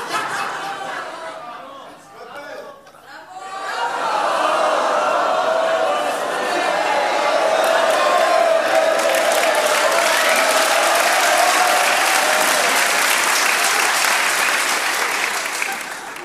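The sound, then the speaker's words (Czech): Crowd applause from an audience recorded for an album: a few seconds of voices give way to dense, steady clapping that holds at an even level to the end. “bravo, bravo, a pak už takový celý dav, sklepy, sklepy a na závěr potlesk ještě, ano?”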